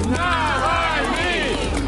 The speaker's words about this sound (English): That's the sound of crowds of people who showed up outside a Moscow church today